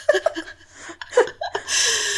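A big intake of breath before answering: a few short voiced, chuckle-like sounds, then a long, noisy breath drawn in at the end.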